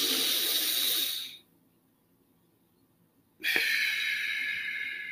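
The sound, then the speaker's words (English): Deep breaths: a long, steady, hissing breath, then a pause of about two seconds, then a second long breath. Both are fairly loud, with no talk. “one of the most effective ways to do that is just to take a few deep breaths.”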